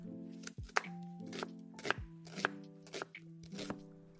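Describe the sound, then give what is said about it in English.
Knife chopping onion and garlic: several crisp, uneven chops with short pauses between them, fairly quiet, with no talk. “We'll chop up a little onion, garlic.”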